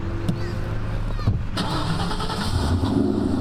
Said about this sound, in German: Ich probiere mal, ob er anspringt.